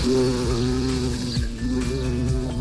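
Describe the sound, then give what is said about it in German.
A small, fluffy bumblebee buzzes steadily with a low, droning hum that wavers slightly in pitch and stays loud throughout, with no other sound. “Da war so eine kleine, flauschige Hummel, die uns den schönsten Musikmix präsentiert hat.”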